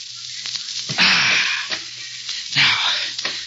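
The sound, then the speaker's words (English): A knife saws through rope tied around a wrist, making rough rasping scrapes: two longer, louder strokes with shorter, fainter scrapes around them. “Now to cut this rope in my wrist.”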